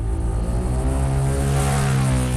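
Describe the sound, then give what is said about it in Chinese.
Motorcycle engine with the throttle opened, a loud, continuous, low droning roar rich in harmonics that holds fairly steady throughout, with no clear rise in pitch and no voices. “油门一加，摩托车喷出一道烟雾，带起一股尘土。”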